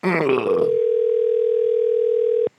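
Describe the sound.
A telephone tone on an unanswered call: after a short voice, a single steady pitched tone holds unchanged for about two seconds, then stops abruptly.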